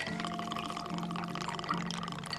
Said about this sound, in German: Ein runder Eiswürfel wird in ein Glas gelegt. Eine Frauenhand mixt einen Cocktail und gießt ihn auf das Eis.